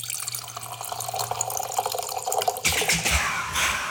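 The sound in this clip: Wine trickles from the tap of a bag-in-box. Faint dripping gives way to a louder splashing stream of liquid toward the end, with no voices.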